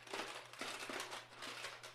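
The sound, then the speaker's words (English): Someone rummages through a collection of cassette tapes, making soft plastic rustles and clacks in several faint, irregular bursts. “Oh, we're dipping into the tapes. There we go.”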